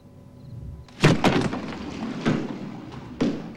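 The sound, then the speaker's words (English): A pearl-handled gun dropped onto the floor and then kicked across it: a few heavy thuds and scuffing knocks, each sharp at the start and quickly dying away, with no one speaking. “The man half smiles as he drops the pearl-handled gun to the floor beside him, then kicks it across the floor.”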